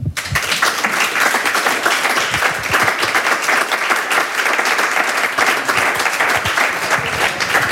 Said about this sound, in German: Ich bitte Sie um einen herzlichen Willkommensapplaus für die zauberhafte Elisa Duca.